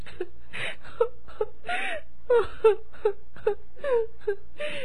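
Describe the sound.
A woman sobs, letting out many short wavering whimpers and moaning wails broken by breathy gasps, in an uneven rhythm with no words.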